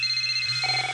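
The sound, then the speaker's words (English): A telephone rings for a small business: a short electronic ringtone with bright, steady, high tones that shift pitch partway through, heard alone for about a second. “As a small business owner, this is one of the sweetest sounds you can hear. After all, more calls mean more customers.”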